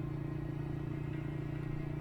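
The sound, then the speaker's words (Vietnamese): A Honda motorbike engine speeding along: a continuous low droning rumble that holds a steady, even pitch, with no voices. “Chiếc xe Honda vẫn lao vụt đi, nhưng ánh mắt của bà Bồi không thể nào thoát khỏi bóng người kia.”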